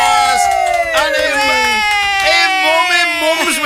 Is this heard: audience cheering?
yes